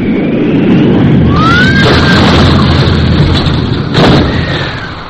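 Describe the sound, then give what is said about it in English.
The R-101 airship crashing and exploding as it dropped earthward in a gale near Beauvais, France: a loud, sustained roaring rumble with a sharper burst late on before it eases slightly. “within 5 miles of a destination, the R-101 suddenly dropped earthward with a sickening lurch and exploded.”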